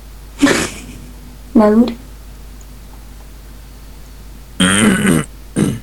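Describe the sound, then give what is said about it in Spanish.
Rough throat clearing from a man whose voice is hoarse from asthma, heard during a Skype call. There are four short, raspy, voiced bursts separated by quiet pauses. “No, es que siempre tengo carraspera por el hecho de ser asmático, aunque no sé si tengo asma.”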